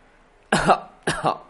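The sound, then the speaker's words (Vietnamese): Two dry coughs from an elderly patriarch, each a short rough burst of throat sound, separated by a brief pause and heard alone. “Trần Lão Thái Gia hơi nhíu mày, sau đó ho khan một tiếng. Một tiếng ho khan này nhất thời làm cho ánh mắt mọi người rời khỏi người Trần Ninh”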